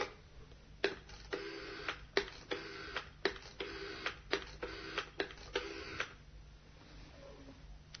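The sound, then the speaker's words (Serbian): A telephone rings on the other end of the line, heard as faint buzzy ring bursts in short, regular pulses over about six seconds before stopping. “Na drugoj strani zvoni telefon.”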